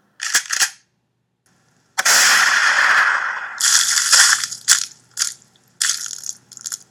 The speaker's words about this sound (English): I just thought I'd scare him and point the gun at him, but then I accidentally fired it and his head exploded.